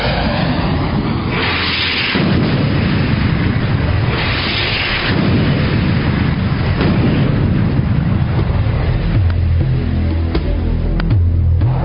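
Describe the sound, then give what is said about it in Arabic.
Deep, heavy rumbling from an air strike bombing a house, loud and sustained for the whole stretch with rolling surges and no voices. “كابتن، تم قصف دار نيوتن والأرض تبعتهم بنجاح.”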